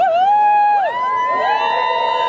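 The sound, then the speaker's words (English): People cheer and whoop as a solar eclipse darkens a corner of Iceland, with a few high, sliding whoops rising and falling over a soft bed of crowd noise. “As people took off their glasses and stared wide-eyed at the sky, some cheered, others fell into silence.”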